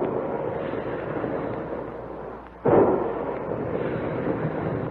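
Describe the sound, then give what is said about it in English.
Big guns firing: a continuous heavy rumbling roar, broken by one sharp, loud blast partway through that then settles back into the steady din. “Big guns, hear them?”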